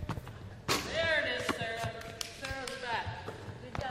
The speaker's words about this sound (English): Back in the Brian Coyle Center gym, the Lady Warriors are practicing their shooting, passing, and ball handling. Now, they can finally practice dribbling between the legs.